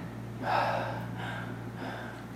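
A person gives a single sharp startled gasp, a sudden inhalation of fright performed as a demonstration. The breath is quick and airy, and it tails off into quiet.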